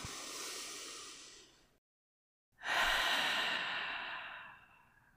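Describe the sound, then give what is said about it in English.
A slow, deep breath: a long airy inhale fades out, a brief silence follows, then a louder, drawn-out exhale like a sigh trails away. “Let's take a deep breath into this new year”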